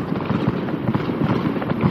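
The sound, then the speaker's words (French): Fireworks explode in the sky with a dense, continuous wash of crackling and rumbling bursts that stays fairly even in loudness throughout, with no talking. “C'est alors que l'étoile explose en un feu d'artifice. Elle éclate dans le ciel en mille éclats”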